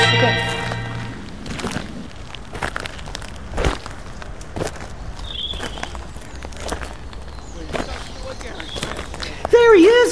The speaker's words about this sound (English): Armed, they start down the stairs of their three-level townhouse and out to the drive.